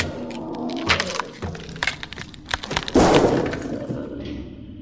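A lamp being smashed, with glass breaking: several sharp cracks and clattering impacts, loud bursts that fade out into scattered rattles, with no voices.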